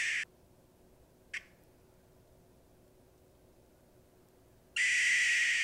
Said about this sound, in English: That doesn't sound like a barred owl. So that's one of their calls. Yeah. It sounds like that's like a alarm. Yeah, that's the alarm call.